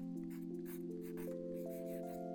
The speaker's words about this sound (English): And so we're just gonna do some fake writing, like, just write my name.